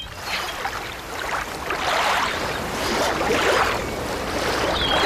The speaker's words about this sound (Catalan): On estem? És a la platja. És a la platja, molt bé.